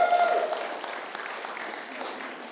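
A morning audience applauds to welcome a visiting pastor's wife, with dense, steady clapping from many hands that stays full throughout and eases off only slightly toward the end.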